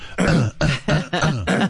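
Throat clearing, a nervous habit, repeated as a quick series of about five rough, voiced bursts in under two seconds, each a short guttural rasp with brief gaps between, loud and alone.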